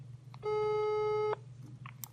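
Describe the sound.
A telephone busy signal sounds once after the other caller hangs up: a single steady, buzzy beep lasting just under a second, followed by faint low hum and a few small clicks.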